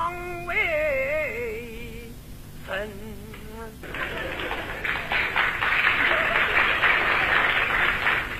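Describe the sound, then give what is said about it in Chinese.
Thin, sparse audience applause from only a few clappers at a Beijing show. It starts about halfway through, after a brief wavering voice, and continues at moderate strength to the end. “鼓掌的人不多呀”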